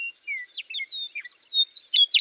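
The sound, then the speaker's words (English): A meadowlark sings in open grassland, a quick run of high, clear whistled notes and chirps that grows brighter and louder toward the end. “In the grasslands and prairies of Canada, the U.S., and Mexico, some of the most iconic bird songs are those of the meadowlarks.”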